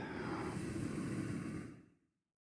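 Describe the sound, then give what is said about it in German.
A single deep breath in and out, one long, even, airy rush of air that holds steady and then fades away, with no talk. “Atme tief ein. Und wieder aus.”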